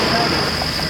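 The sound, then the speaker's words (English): Crickets chirping at night beside a muddy, rain-damaged road: a steady, shrill high-pitched drone that runs unbroken throughout, over a low rumbling background. “That is the sound of crickets because it's now nighttime.”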